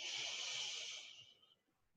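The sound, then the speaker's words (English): Slow inhalation through the nose during a mindfulness and yoga breathing exercise: a soft, airy hiss that holds steady for about a second, then tapers away. Quiet and alone, with no voices. “Let's do another one, smelling in, breathe in.”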